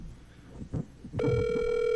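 Outgoing phone call ringing: a few soft thumps and rustles, then a steady electronic ringback tone that starts abruptly and holds at an even level.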